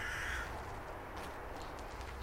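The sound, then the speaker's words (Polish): A rook calling as it flies overhead in late autumn gives one harsh, raspy caw at the start, then faint steady background noise continues without further clear calls. “O, leci nad nami gawron.”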